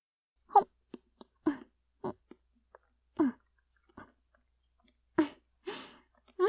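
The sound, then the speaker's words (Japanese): Someone eating anko mochi, a sweet bean rice cake: soft, irregular chewing and wet mouth sounds mixed with brief hummed murmurs, all quiet against near silence. “そういえば先ほど、あんころ餅を作ったのでした。これを食べてからお部屋に向かうことにしますわね。すぐに食べてしまいますので、少々お待ちくださいませ。”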